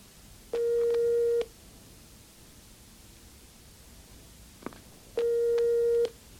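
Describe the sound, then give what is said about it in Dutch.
Telephone line tones sound while calling directory enquiries: two long, steady, buzzy tones of about a second each, separated by roughly four seconds of faint line hiss. A brief click falls in the gap between them. “Hier heb je de telefoon. Bel inlichtingen en vraag het nummer van Proopst, Via Calieta en Turijn.”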